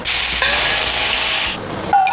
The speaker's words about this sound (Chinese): 我们差不多要煎了， 来吧